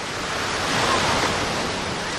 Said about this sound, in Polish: Bałtyk to Bałtyk szumi oraz mewi mewami i to jest taki odgłos, za którym tęsknimy potem od września do następnego lipca.